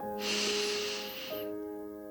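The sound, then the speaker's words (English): A slow, deep breath drawn in as one long, faint, airy hiss lasting about a second. Soft steady tones continue underneath, and the breath trails off into quiet. “Go ahead and take a deep breath in”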